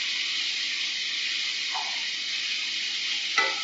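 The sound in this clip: Pineapple sizzles steadily in a hot pan, a bright, even hiss, with a brief stirring scrape midway and a slightly louder one near the end.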